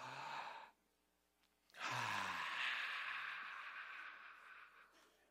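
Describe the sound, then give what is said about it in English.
An audience taking a deep breath together in unison: a short breathy rush, a pause, then a long, loud, sustained whoosh of breath that slowly tapers off. “Take a deep breath with me. Go.”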